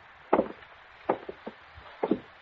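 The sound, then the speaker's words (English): A door is opened with a few faint, short wooden clunks and knocks, arriving in three small clusters spread evenly across the moment. “And I'll open the door.”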